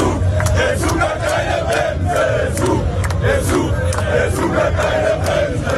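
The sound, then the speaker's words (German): German football fans celebrating on Times Square in New York before a match against Ecuador: a loud, steady roar of many shouting voices, with short sharp bursts of cheering recurring throughout. “Die deutschen Fans sind auch schon ganz entspannt. Sie haben auf dem Times Square in New York ordentlich gefeiert und wir hören da mal rein.”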